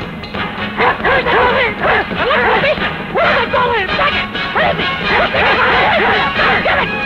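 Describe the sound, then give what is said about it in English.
A dog barks over and over in short, sharp, yelping bursts, loud and nearly unbroken for the whole stretch, with no pauses between the volleys. “A dog barking and my neighbor Rose”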